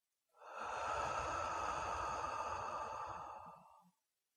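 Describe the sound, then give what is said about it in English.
A slow, deep breath drawn in through the nose and released through the mouth, heard as one long, soft, airy rush lasting several seconds that holds steady and then fades away. “Take a slow, deep breath in through your nose and out through your mouth.”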